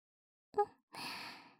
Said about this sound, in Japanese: さっきと同じ流れで、まずはお耳をふうふうしていきます。